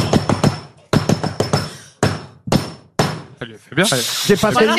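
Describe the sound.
Sharp wooden knocks strike the stage floor in the traditional signal announcing a performance at the Michodière theatre. Many quick blows fall in clustered bursts, then voices take over.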